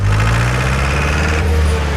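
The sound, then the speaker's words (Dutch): Tractor engine running as a child is driven to school in it, a loud, steady, low throbbing drone with a slight shift in tone partway through and no voices. “Een beetje rustig aan, hè, met dat gas. Nee, joh. Vol gas. Hoe lekker is het dat je met de trekker naar school kan?”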